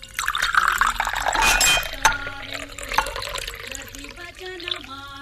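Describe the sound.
Water is fetched and poured into a drinking glass so someone can swallow a tablet: a bright splashing pour followed by a few light glass clinks and small liquid sounds, with no talking.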